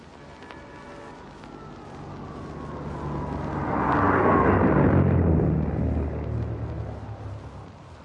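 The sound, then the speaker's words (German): A propeller-driven high-speed railcar on its first major test run passes at high speed. Its roaring rumble swells to a broad peak midway, a falling tone runs underneath, and the noise then fades away. “Im Augenblick hat der Wagen unser Mikrofon passiert. Wir haben Sie teilnehmen lassen, meine Damen und Herren, an einem Teil der ersten großen Versuchsfahrt des Schienenzeppelins”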